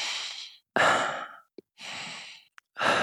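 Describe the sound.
Deep breaths drawn during a breathing exercise for guiding energy into a finger: four soft, airy breath sounds separated by short silences, with small mouth clicks in the gaps and the last breath cut off.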